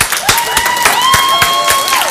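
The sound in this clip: Applause with several sharp, distinct claps standing out over a continuous wash of crowd noise. Sustained tonal voices ring through the middle of the clapping.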